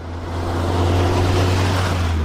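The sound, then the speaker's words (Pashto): Engine drone of an aid-carrying truck on a rough, potholed dirt road to Baghran district: a steady, loud low hum with a broad rumble that swells slightly. No one talks. “د باغران ولسوالۍ ته پر غزیدلی کنډ او کپر سړک د روان هغه کومک لرونکي بایپور موټر ژغ دی”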